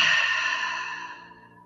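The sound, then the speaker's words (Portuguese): A forceful exhale during a Hatha Yoga breathing exercise, released after the whole body is contracted: one long, breathy rush of air that starts strong and slowly fades away. “Esse é o exercício sopro rada Hatha Yoga, que é um exercício excelente para você tirar a agitação, cansaço.”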